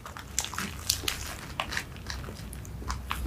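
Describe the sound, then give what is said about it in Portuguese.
Someone bites into and chews a hamburger, recorded close up: many small, moist, crunchy clicks in an irregular rhythm, fairly quiet and without talk. “Vou deixar essas batatas aqui pra ir comendo enquanto eu como o hambúrguer. Vamos ver como é que ele tá.”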